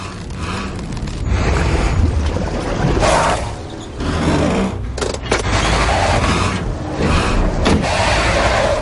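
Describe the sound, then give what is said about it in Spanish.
A car reversing with its rear wheels spinning in mud as it pulls a rope taut: loud, continuous churning roar with repeated surges and bursts of sloshing, gritty noise, no voices. “Las ruedas traseras patinan y la cuerda se tensa. El lodo cercano a la cruz se remueve mientras el coche tira de la cuerda haciendo patinar las ruedas.”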